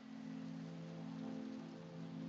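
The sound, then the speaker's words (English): Rain falls outside as a faint, steady hiss that holds even throughout, over a low constant hum, with no voices. “rain on the outside.”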